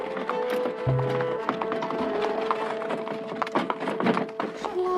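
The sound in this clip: A horse-drawn carriage travelling, with a steady patter of hooves and a busy rattling rumble that continue throughout at moderate loudness.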